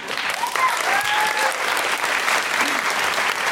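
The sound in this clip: Audience clapping at a live comedy talk show, a continuous, fairly loud patter of many hands that stays even from start to finish.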